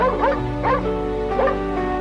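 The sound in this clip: A dog being petted and licking hands gives three short, high whimpering yips in quick succession over a steady low hum.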